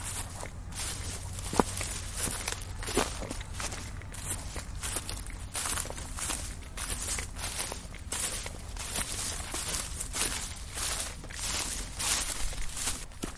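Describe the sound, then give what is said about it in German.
Footsteps walking along an earthen rampart through tall grass over large chunks of stone, on the route from Homberg to Romrod: a steady run of many soft, swishing, crunching steps, fairly faint and without talk. “Ich gehe ein Stück den Wall entlang, doch das Vorankommen wird immer schwieriger, weil große Steinbrocken unter dem hohen Gras liegen.”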